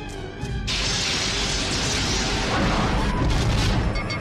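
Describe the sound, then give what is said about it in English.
Star Trek phaser fire sound effect, a loud roaring electronic blast that starts abruptly and holds steady for over three seconds. “Locking phasers on target. They're locking phasers. Ray shields.”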